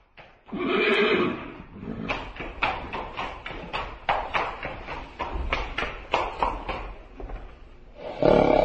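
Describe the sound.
A horse, an official's mount on a road, whinnies loudly, then a run of sharp clopping hoofbeats follows, and another neigh sounds at the end.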